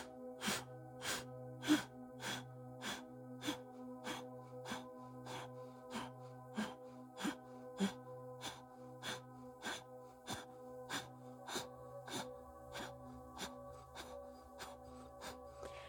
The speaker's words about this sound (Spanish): Inhalo con abdomen, pecho y hombros. Y solo exhalo.